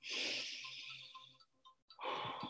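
A deep breath pushed out during a guided breathing exercise, a long, breathy rush of air lasting over a second, then a short pause and another breath beginning, soft overall with faint steady tones underneath.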